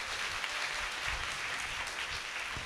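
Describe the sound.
Applause from an audience praising the Lord at a Marian covenant church service, a steady, dense wash of clapping that holds at an even level for the whole stretch without any voices.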